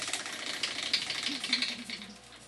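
Clicking of a prize wheel spun in a party game, a quiet run of rapid, crisp ticks that rise and fall in loudness and fade toward the end.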